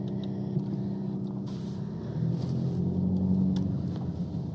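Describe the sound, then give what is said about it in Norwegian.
Car engine rumble from a car driving past a house, a steady low hum that swells somewhat louder midway and stays even, with no talk. “Da kjører vi forbi.”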